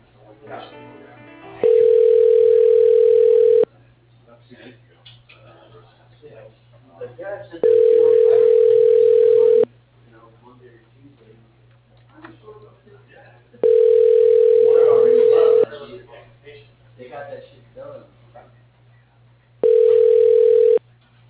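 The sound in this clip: A telephone line tone plays as a call is transferred to voicemail: four steady, loud, mid-pitched bursts of about two seconds each, with people talking in the gaps between them.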